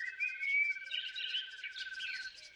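Birds sing in high, rapid chirps and twitters. The faint, continuous song overlaps in a busy stream of bright, trilling notes, with no voices present.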